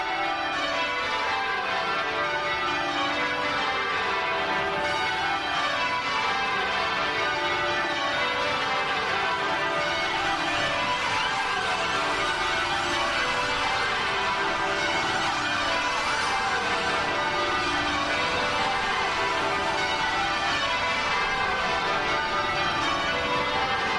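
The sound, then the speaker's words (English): Church bells at an abbey peal continuously in tribute. The overlapping strikes form steady, cascading descending rounds that ring out loudly and unbroken for the whole span. “Here's the sound of the bells chiming at Westminster Abbey in her honor.”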